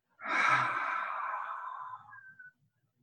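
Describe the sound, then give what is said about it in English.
A slow, gentle exhale out through the mouth: one soft, breathy rush of air lasting about two seconds, easing off gradually before silence. “Gently inhale through your nose. And exhale out of your mouth.”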